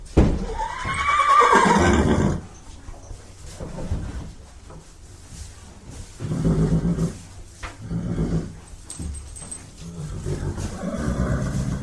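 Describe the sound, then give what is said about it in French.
An agitated pony whinnies in its stall with a loud, wavering neigh lasting about two seconds, followed by several quieter, lower, breathy sounds. “En arrivant en boxe, Léa trouve son poney très agité.”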